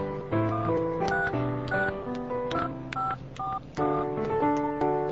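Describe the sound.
Touch-tone telephone dialing: a quick run of many clear electronic beeps of differing pitch, pressed one after another with short gaps, with no other sound.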